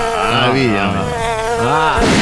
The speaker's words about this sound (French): On sait même pas pourquoi ils existent, à part nous gâcher la vie, c'est les moustiques.